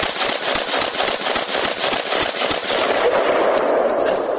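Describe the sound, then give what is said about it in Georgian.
Rapid gunfire from a Bushmaster self-loading rifle, many sharp, loud shots in quick succession that continue without a break throughout. “ასე ისვრის თვით დამტენი შაშხანა ბუშმასტერი.”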